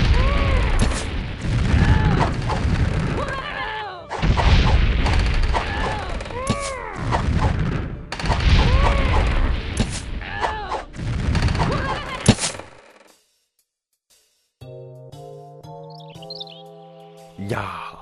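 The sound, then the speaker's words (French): Booming fireball blasts hurled at a tree creature during a fantasy battle against goblins: several loud, noisy bursts with shouting voices among them, then a short silence and a few soft tonal notes. “pourquoi t'as balancé tes boules de feu sur un arbre? C'est les gobelins qu'il fallait tuer.”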